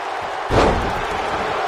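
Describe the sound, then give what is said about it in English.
Heavy thud of a wrestler slammed onto the mat with a fall away slam during a wrestling match, a single dull impact rising over steady crowd noise. “Into a fall away slam.”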